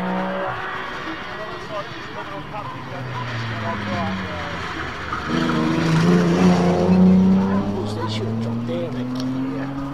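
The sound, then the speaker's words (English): A Porsche 911 Carrera slides through a corner, tires squealing over a racing engine whose note swells louder and climbs in pitch during the second half, with men talking over it. “Slide in that corner and then kick it out. Is that another Porsche? Certainly. Very hard to tell. Yes, another 911 Carrera.”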